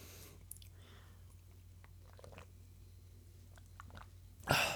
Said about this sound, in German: Äh, ich muss erstmal was trinken, einen Augenblick.